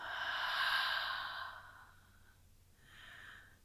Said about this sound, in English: Another one, inhale. And exhale.